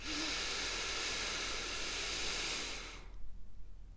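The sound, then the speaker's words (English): A long, deep breath in during a guided breathing exercise: a steady, airy hiss lasts about three seconds, then stops, leaving faint soft rustling. “Deep breath in.”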